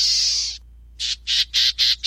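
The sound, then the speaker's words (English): A small black-tailed gnatcatcher calls with a drawn-out, harsh, buzzy note, then after a short gap gives five short rasping notes in a quick, even rhythm. The calls are clear and high-pitched, with no other sound. “the equally small black-tailed netcatcher puts it like this”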